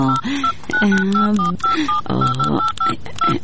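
A telephone number is dialled on a touch-tone keypad: many short, clear beeps in quick, uneven succession, each a steady two-note tone, with brief gaps between key presses.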